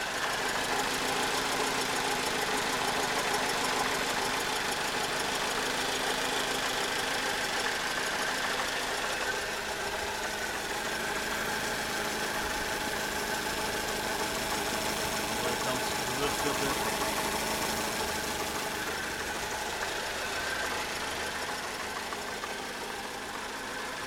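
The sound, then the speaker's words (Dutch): A car engine idles with the hood open, giving a steady, continuous mechanical hum and rumble that barely changes throughout. “Klep openzetten. Staan we voor de motor.”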